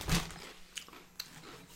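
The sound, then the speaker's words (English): People eat crunchy snacks: one loud crunching bite, then a few faint crisp clicks and quiet chewing. The level is low and no one talks. “I hope you guys are enjoying this ASMR of us eating and opening things right now.”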